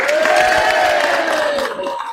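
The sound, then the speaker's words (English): Crowd cheering at the Wakefield District Council election count at Thornes Park Stadium, apparently from Reform UK supporters: loud, sustained shouted whoops with drawn-out tones over a bed of clapping and crowd noise. “the loudest cheers are coming from a certain smiley corner of Thorns Park Stadium.”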